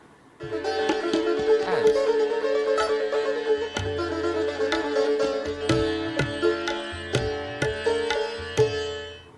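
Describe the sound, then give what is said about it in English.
Sitar played solo, many bright plucked notes ringing over a sustained drone, the phrases thinning out later into more spaced, accented plucks. “So what you heard there was a sitar performance.”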